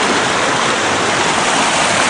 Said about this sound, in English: There's the creek. It's a little bit low today.